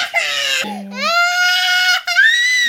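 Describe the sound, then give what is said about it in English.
A toddler wailing in a full-on tantrum: loud, high-pitched, sustained cries broken by short gasps, with a wavering, strained tone. “here we go, full-on tantrum alert. If you've ever cared for a toddler, then you're going to appreciate the power of the edit.”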